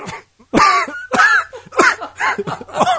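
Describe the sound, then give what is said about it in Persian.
Harsh coughing from a nervous person, a few loud bursts spaced under a second apart, some with a raspy voiced tail, and short silences between them. “شاید 80% این سرفه هم به خاطر نروس بودنم باشه.”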